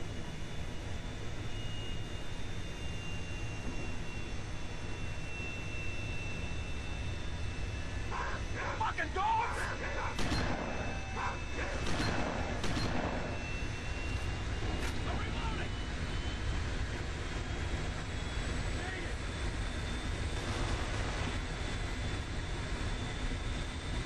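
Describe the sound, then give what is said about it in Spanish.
An airplane flies during a video game's ending escape scene with a police chase. A steady, broad engine roar fills the whole stretch, with rougher bursts of noise swelling through the middle. “Kane y Lynch deben escapar del país en avión mientras son perseguidos por la policía. Y esto es lo que recibimos.”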